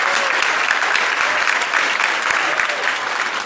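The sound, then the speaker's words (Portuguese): Audience applause at a Baptist church in Curitiba in honour of the local people: dense, continuous clapping, fairly loud and steady throughout. “Então, vamos dar uma salva de palmas aos curitibanos, porque”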